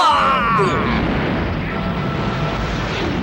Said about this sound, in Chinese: 这里是敌舰队的交叉射击点，敌舰队展开炮击了。